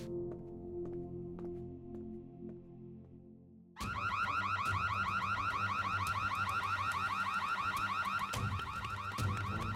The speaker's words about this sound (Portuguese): Pensei que você fosse cuidar do alarme. Deve ser um alarme reserva, se pegarem a gente.